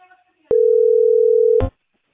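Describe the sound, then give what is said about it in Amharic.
A telephone disconnect tone sounds after a call-centre line in Ethiopia drops: one steady mid-pitched beep lasting about a second, with a sharp click at its start and a rougher click as it ends. “መስመር ተቋርጦልኝ ልውላችሁ።”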